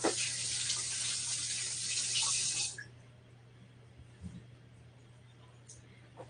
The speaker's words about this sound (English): I'm gonna wash my hands really quick.